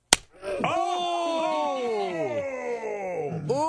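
A tortilla slapped against a man's face gives one sharp, loud smack at the start, followed by a long, wavering, groan-like vocal cry that slides down in pitch.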